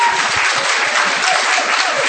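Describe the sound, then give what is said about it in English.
Sustained audience applause, a dense, loud wash of clapping that stays even from start to finish without clear individual claps or voices standing out. “Round of applause for Vicky Swift.”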